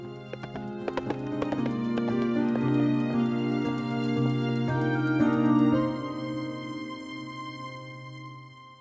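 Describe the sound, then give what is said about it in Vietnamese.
A galloping horse carrying two riders back to a manor: a rapid clopping rhythm of hoofbeats, clearest at the start, over sustained music that continues steadily to the end. “Bá Hùng cõng Điền Quyên lên ngựa rồi phi về biệt phủ”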